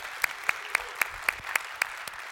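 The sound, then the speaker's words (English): Rhythmic applause from a church audience: about seven sharp, evenly spaced claps at a steady, quick tempo, with no voices over them. “If you are here in person, if you would put your hands together, welcome in our online family here today.”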